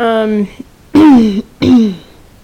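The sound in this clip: A person clears their throat in a few loud, voiced, gravelly bursts, the later ones sliding downward in pitch, with no other sound around them.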